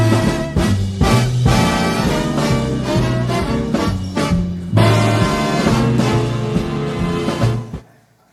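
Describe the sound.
A big band plays a 1960 television theme: punchy brass chords repeat over a driving swing beat, loud and brassy, ending in a quick fade near the close.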